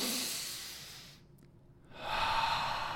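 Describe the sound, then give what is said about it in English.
A deep breath in and out during a guided breathing exercise: a loud, airy rush of breath that dips to a quieter gap, then swells again into another long, breathy stream. “A little fuller now, big breath in and let it go. 5 more big breath in.”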